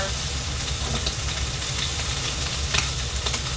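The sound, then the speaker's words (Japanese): Green onions sizzling and scorching in a pan at a standing yakiniku restaurant, a constant loud frying hiss over a low steady rumble, with a few brief crackles. “ネギがめちゃくちゃ焦げてます弱火にする”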